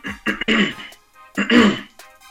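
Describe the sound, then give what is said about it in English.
Two rough, voiced throat-clearing bursts from a man during an interview, separated by a short pause, each harsh and fairly loud. “Sorry for the throat clearing.”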